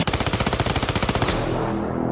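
A machine gun fires one long, rapid burst of many sharp, evenly spaced shots for over a second, then stops abruptly as the sound rings on and fades away.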